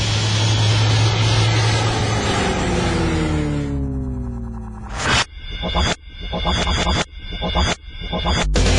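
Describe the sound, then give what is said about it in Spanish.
Airplane taking off sound effect: a loud, roaring engine drone whose tones bend and slide in pitch for several seconds, then the sound breaks into a few abrupt cuts and surges. “Estamos a punto de despegar. Abrochen su cinturón”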